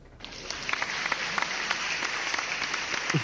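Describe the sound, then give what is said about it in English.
An applause sound effect: dense, continuous clapping that starts abruptly and holds steady and fairly loud for a few seconds. “So when I type in applause sound effect, what comes up in YouTube is Oklahoma City.”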